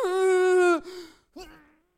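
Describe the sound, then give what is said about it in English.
A voice imitates a child angrily holding her breath: a tense, strained, sustained vocal tone cuts off abruptly, followed by a brief shaky fade and then a shorter, quieter strained sound that trails away. “She was one of them kids that would hold her breath when she got mad.”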